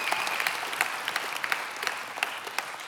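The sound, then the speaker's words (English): Audience applause in a church service welcoming online worshipers: dense, steady clapping from a crowd that holds at an even level throughout with no talking over it. “Would you put your hands together? Let them know we're glad that they're worshiping with us.”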